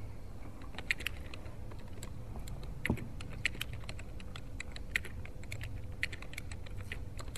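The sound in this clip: Computer keyboard keys click as a motion is typed up during a council meeting, many soft, irregular taps at a faint level with no talk.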